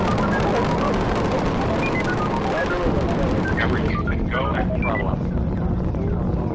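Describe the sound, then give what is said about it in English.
Rocket ignition and liftoff of Space Shuttle Discovery: a dense, continuous roar with rough crackle, steady and loud throughout without breaks. “Boost ignition and liftoff of the Space Shuttle Discovery, returning to the space station”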